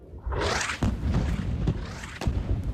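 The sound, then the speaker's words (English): An airstrike hits a desalination plant in the Sheikh Radwan neighborhood of Gaza: a broad rushing blast swells and fades, followed by a few sharper, dull thuds over a rumbling background. “This is the moment an attack targeted a desalination plant in the Sheikh Radwan neighborhood.”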